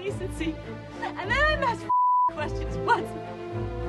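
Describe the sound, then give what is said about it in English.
A single steady censor bleep, one sustained pure electronic tone lasting about a third of a second, cuts into emotional film dialogue. Agitated speech runs before and after it. “Yeah, we had a bleep a lot there.”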